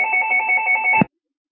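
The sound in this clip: A telephone rings on a call-in show as a caller is put through: one warbling electronic ring with a fast pulsing trill lasts about a second, then cuts off abruptly into silence.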